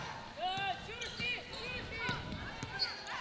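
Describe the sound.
Basketball dribbled on a court during a women's game: a few faint, separate bounces thud at an uneven pace, mixed with high squeaks from sneakers on the floor.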